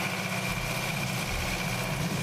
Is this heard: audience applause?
no